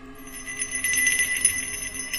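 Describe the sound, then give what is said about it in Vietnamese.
A handheld bell rings strangely with a wind-chime quality, giving a steady, shimmering wash of high, bright tones that hold throughout at a fairly soft level. “cái chuông đang cầm ở trên tay của ông Sơn tự nhiên cứ rung lên những tiếng kỳ lạ.”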